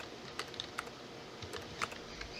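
Faint keystrokes on a computer keyboard as a chat message is typed: a handful of light, irregular clicks over a steady background hiss.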